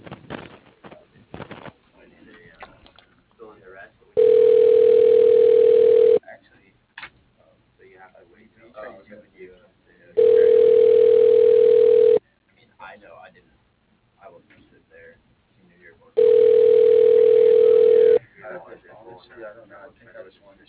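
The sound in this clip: A telephone rings while a call is being transferred. Three evenly spaced ring tones at one steady pitch each last about two seconds, separated by longer gaps with faint murmuring.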